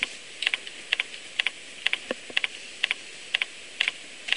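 Keys clatter as code is typed on a computer keyboard: many crisp, irregular clicks that fall in short bursts with small gaps, steady in loudness and with no voices.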